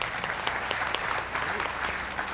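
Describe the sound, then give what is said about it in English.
Applause from a church audience honoring a pastor's 40 years of ordination: steady, dense clapping that holds at an even level for the whole stretch, with no pauses. “And so let's give him a hand for that.”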